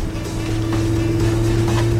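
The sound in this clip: A car engine drives off with a loud, steady drone carrying strong low humming tones and a broad wash of road noise, with no change in pitch.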